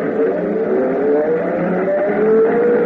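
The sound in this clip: An old bus accelerating onto the open highway, its engine a loud, continuous rumbling drone that holds steady throughout.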